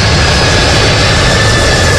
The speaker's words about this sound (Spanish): Este es el avión más grande de la Fuerza Aérea de Estados Unidos que aterrizó ayer en el aeropuerto José Joaquín de Olmedo de Guayaquil